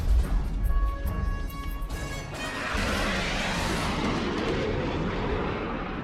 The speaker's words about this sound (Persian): دیوار صوتی بود. 10 تا هواپیما پرواز میکنن